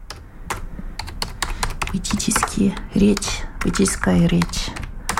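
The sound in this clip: Keys clack on a computer keyboard as someone types in Russian, with quick irregular keystrokes, and a voice speaks over the later part.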